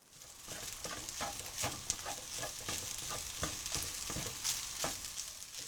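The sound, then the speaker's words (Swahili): Ingredients, raisins among them, frying together in a pan: a steady sizzle broken by many sharp crackles and pops with stirring scrapes, and no voices. “Kaanga kila kitu pamoja kwa muda mrefu kidogo na uongeze viambato vingine vilivyosalia.”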